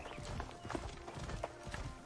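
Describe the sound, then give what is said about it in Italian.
Hoofbeats of a horse being ridden in alpha-build video game gameplay, a steady rhythmic clopping set in dense, broad background noise. “qui più che Assassin's Creed ricorda un po' Red Dead Redemption, di la verità, con il cavallo e tu che devi cavalcare”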